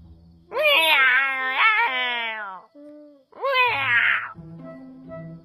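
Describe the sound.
Human voice imitating a cat meowing: two drawn-out, wavering, high-pitched meows separated by a short pause, the first longer than the second, fairly loud and alone.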